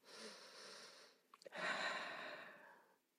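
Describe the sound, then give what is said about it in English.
Breathing exercise: air is drawn in, then a long, steady, soft exhale follows. The breaths are quiet and breathy, with no speech. “I could do it right now, you know, two back-to-back inhales, a longer exhale.”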